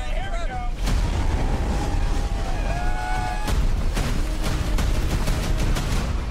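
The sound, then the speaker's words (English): Trailer soundtrack for Twisters, sequel to the 1990s film Twister: a loud, continuous roaring rumble broken by several sharp booms and crashes, with sustained tones layered over the top. “it was commissioned to launch the new movie Twisters, which is out soon. They're doing a lot of press for it at the moment. It's getting great reviews. Yeah. I wasn't sure about a sequel. Sequel to the 90s iconic classic Twister. Here's a little trailer.”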